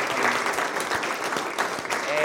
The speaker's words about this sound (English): If you served in the armed forces in any branch, please stand. And let's give them a round of applause, can we?